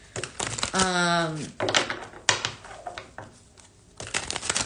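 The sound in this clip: Tarot cards being shuffled and drawn make a few crisp riffling, slapping bursts of papery clatter, with a brief voice heard between them.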